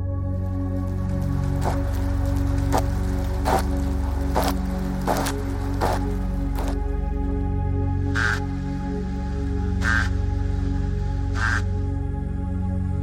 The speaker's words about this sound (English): What you're hearing right now are fish. Singing fish.